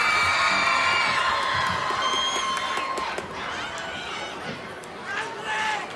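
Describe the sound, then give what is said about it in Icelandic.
A live audience cheering, whooping and shouting for a performer who has just finished, a loud continuous wall of excited voices that dips slightly midway and swells again at the end. “Kristmundur Axel, gefið honum extra gott klapp!”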